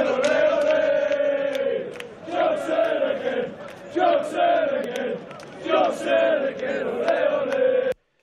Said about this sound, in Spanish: Este era el sonido de los hinchas de los Spurs saliendo ayer de San Mamés.